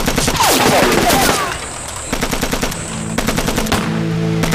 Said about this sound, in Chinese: 这是大正11式轻机枪，没有9.20的重机枪，这都是鬼子的尖兵。